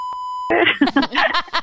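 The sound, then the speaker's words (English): A censor beep, a single steady mid-pitched tone lasting about half a second, followed at once by people talking. “we're gonna have to beep it out so we don't get sued.”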